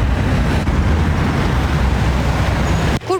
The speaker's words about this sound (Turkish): Bayram tatili biterken tatilciler yollara düştü, binlerce sürücü otoyollarda saatlerce metre metre ilerledi.